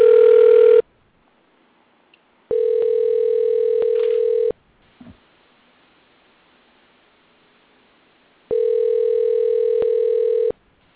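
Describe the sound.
A telephone line tone plays after a number is dialed. It comes in three steady, even-pitched bursts of about two seconds each, separated by long silent gaps, with a brief faint click in between.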